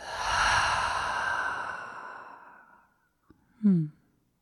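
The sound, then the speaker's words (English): A deep breath exhaled through an open mouth: a long, breathy rush that starts strong and fades out over about three seconds, followed by a short click and a brief voiced sound. “we take the deepest breath of the day so far. Inhale, fill up. Open the mouth. Exhale it out.”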